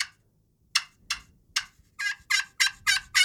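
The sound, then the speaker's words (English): A slate turkey call is played loud, producing eight sharp, high, raspy yelps. The first three are widely spaced, then five come in a quicker, steady run. “And I would argue that a slate call or a glass call, whatever, cuts the wind as good and wears seven more hats than the box call does. So you break wind better with a slate call. Break wind better with a slate. You can get real loud.”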